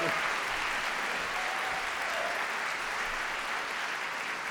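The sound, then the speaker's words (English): Steady applause from a live audience welcoming two guests, a dense, even patter of many hands clapping at constant loudness throughout with no single voice standing out. “There is a whole contingent of people who applauded very specifically that for Ryan.”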